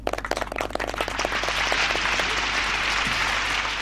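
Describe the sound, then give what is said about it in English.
Audience applause welcoming a guest chef begins as scattered individual claps and quickly swells into dense, steady clapping that holds evenly to the end. “It now gives me great pleasure to welcome Jesse Dunford Wood, and I'd ask you to give a big hand, please, to Jesse.”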